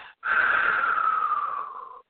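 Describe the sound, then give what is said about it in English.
One deep breath taken in a guided breathing exercise, in through the nose and out through the mouth, comes as a single steady airy rush lasting nearly two seconds before cutting off, with no talk. “One more breath in through nose, out through mouth”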